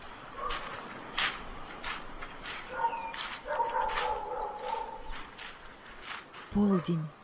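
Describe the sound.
A dog barks and yips as it walks with two people along a road at noon in the heat. A few short, sharp yelps and bark-like bursts sound over a steady background, with one louder, tonal bark near the end.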